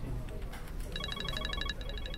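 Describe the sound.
A telephone rings with rapid, bright electronic trilling in two quick bursts, heard over a steady background hiss.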